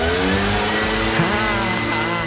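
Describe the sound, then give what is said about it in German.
Leaf blowers run with a loud, steady, whining roar, a dense continuous rush of air with a droning tone and no breaks, as autumn leaves are cleared from a sidewalk. “der Symphonie der Laubbläser lauschen. Ja, die Blätter, sie fallen und sie fallen gerne auch mal auf den Gehweg.”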